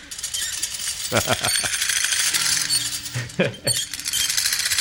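A metal shop shutter is pulled open at the start of a song, giving a broad, hissing metallic rattle with several sharp clanks and scrapes that stay fairly loud throughout.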